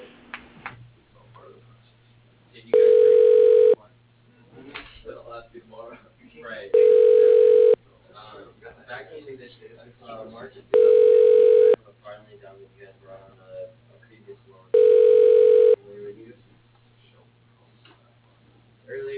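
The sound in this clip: Telephone call tones while calling voicemail: four evenly spaced, steady beeps, each lasting about a second, sound between stretches of talking over the phone line.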